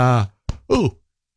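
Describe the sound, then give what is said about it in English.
A drawn-out voiced yawn with a groaning tone that falls in pitch, trailing off into a few short breathy, voiced bursts before silence. “sorry, just did a bit of a yawn there.”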